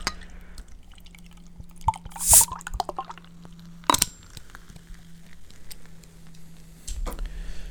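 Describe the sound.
Drink poured from a freshly opened bottle for a Christmas pint: faint liquid trickling and dripping, broken by a few sharper glassy clinks and splashes, alone without talk.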